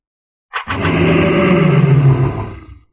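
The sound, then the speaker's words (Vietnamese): A giant golden-furred ape lets out one loud, deep roar that swells quickly, holds for about two seconds, and then tapers away. “Hàn Lập lại lần nữa hóa thành thân kim mao cự viên, gầm lên mãnh liệt.”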